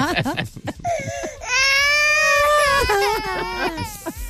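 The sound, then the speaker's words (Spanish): A baby cries loudly, with short sobbing whimpers leading into a long sustained wail and then more broken, hiccuping cries. “Llora, bebé.”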